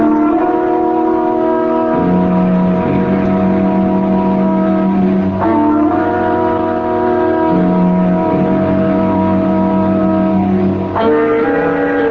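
An early motor car drives away, its engine a loud, steady droning hum with rich harmonics that shifts pitch abruptly twice, with no voices.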